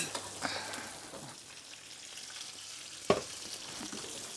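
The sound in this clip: Food sears in a hot pan with a steady, bright sizzle throughout, plus one sharp clatter partway through. No voices are heard.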